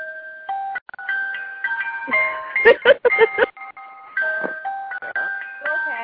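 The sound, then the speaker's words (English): A small music box plays a tinkling melody of clear, high plucked notes in a steady sequence. A brief cluster of rapid mechanical clicks breaks in near the middle before the tune carries on. “And this is my little music box, and it plays a song that my family hates because I used to play it all the time.”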